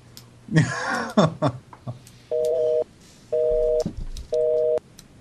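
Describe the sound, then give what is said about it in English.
Telephone off-hook tone from a phone pulled off the hook: three evenly spaced, steady beeping tones follow brief voice sounds at the start. “The baby pulled the phone off the hook.”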